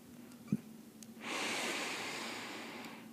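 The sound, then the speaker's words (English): A slow, deep breath drawn in, a steady soft airy rush lasting about two seconds after a brief faint tap, with no talking. “take a nice, slow, deep breath.”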